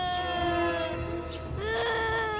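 A small child cries in a continuous, wavering wail that dips briefly near the middle before rising again, loud and steady throughout.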